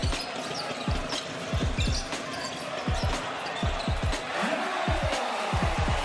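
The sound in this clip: Many sharp thumps of a basketball being dribbled on a court, coming in a quick, uneven rhythm with brief pauses between bursts of bounces.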